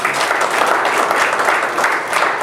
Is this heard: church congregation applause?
yes